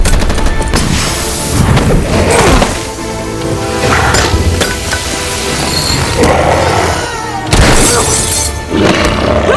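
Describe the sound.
Soldiers fire tear gas launchers amid a loud, continuous din of bangs and roaring noise, with a few sharp booms standing out from the chaos.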